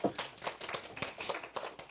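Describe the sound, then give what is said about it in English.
A church audience applauding at the end of a service, heard as fairly faint, steady clapping. The claps fall in a quick, even rhythm throughout. “You clapping because of the hat comment?”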